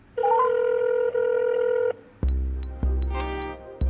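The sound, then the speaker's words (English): Telephone ringtone: a steady electronic tone that steps up in pitch at the start, then a second, brighter phrase of plucked, melodic notes with sharp attacks. “Should I answer the call, though? Should I answer the phone?”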